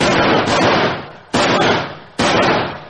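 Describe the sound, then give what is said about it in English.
Rifle gunfire rings out in three loud, sharp cracks, each followed by a long decaying tail, spaced unevenly about a second apart. “He's firing! He's firing!”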